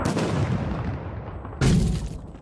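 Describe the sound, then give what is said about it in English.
Mortar fire in the combat video game Six Days in Fallujah: two heavy booms, each a broad rumbling blast that slowly decays, the second hitting sharply after the first has faded. “Heads up. Looks like mortar fire coming from a rooftop somewhere near your position.”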